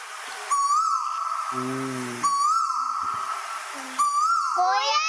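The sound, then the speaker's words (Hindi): Koel bird calling, three clear whistled notes that rise in pitch, spaced about two seconds apart, the last one running into a quicker rising phrase, with soft low tones heard between calls. “जी कोयल है प्यारी सी, कोयल कोयल हमारी प्यारी प्यारी है ना, अच्छी बोलती है ना।”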